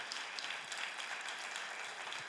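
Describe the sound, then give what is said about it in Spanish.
Church audience applauding during a sermon, a faint, even patter of many hands clapping that continues at a low, steady level. “Denle un aplauso al Señor porque es para Él.”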